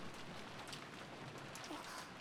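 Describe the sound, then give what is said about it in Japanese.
A sudden rain shower gives a dense, even hiss of falling rain that stays fairly faint and steady throughout, with no voices. “お兄ちゃんもびしょびしょ。まったく、急な雨とか本当嫌になっちゃいますよね。”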